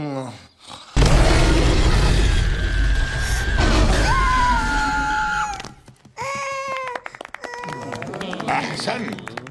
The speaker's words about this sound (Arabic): الآن أطلق لنا زمجرة مدوية.